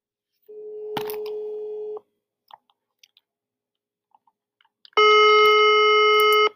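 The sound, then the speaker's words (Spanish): Telephone redialing during a call: a steady electronic line tone, a few soft scattered clicks, then a louder, richer buzzing tone that holds steady before cutting off, with no talk. “Oh, sí contestó, pero colgó. Vamos a volver a marcar.”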